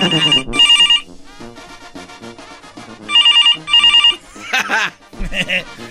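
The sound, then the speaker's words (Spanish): A telephone rings with bright electronic trills in double bursts, two pairs separated by a pause. Voices and laughter fill the gaps between the rings. “Ah, caray, estamos teniendo ahorita llamadas. Ahí está sonando el teléfono.”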